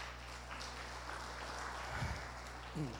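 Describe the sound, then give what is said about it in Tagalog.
A church audience applauds for the Lord during a service. The clapping is faint and steady, with brief voices rising above it near the end. “Palakpakan po natin ang Lord.”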